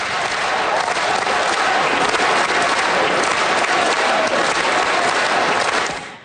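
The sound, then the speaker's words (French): Federal MPs in Ottawa give a triumphant ovation to Olympic and Paralympic athletes from the Milan-Cortina Games. Dense, loud clapping continues steadily and fades away in the final moments. “Ce qu'on entend, ce sont les députés fédéraux qui ont réservé un accueil triomphal aux athlètes olympiques et paralympiques qui ont pris part aux Jeux de Milan-Cortina.”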